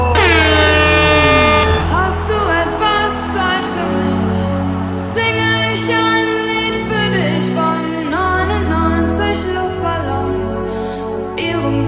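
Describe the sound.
Air horns blare repeatedly in a Centurion drinking-game music mix, with loud, brassy blasts layered over a pounding beat and sharp bursts that keep punctuating the track.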